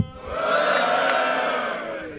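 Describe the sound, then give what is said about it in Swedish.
An audience at a live show lets out a loud, drunken roar, a mass of shouting voices that swells up within a moment and holds strong before easing off slightly. “Kan man få ett fyllevrål från publiken?”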